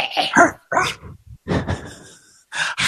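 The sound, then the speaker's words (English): A human voice imitates a dog barking, giving a few gruff, yelping bark-like bursts broken by short pauses. “Oh, God, I've turned into a dog again.”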